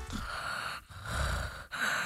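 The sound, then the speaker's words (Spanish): A voice imitates quiet snoring with soft, breathy snorting and rasping breaths, a few low drawn-out sounds split by two brief pauses. “a mí me han dicho que ronco bajito. Me imagino que será algo así.”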